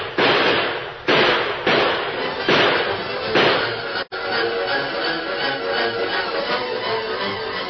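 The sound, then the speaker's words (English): Rifle gunfire in a radio drama shootout. Several heavy, booming blasts come roughly a second apart, then after a sharp break a dense, continuous clatter of shots stays loud to the end. “Fire as fast as you can.”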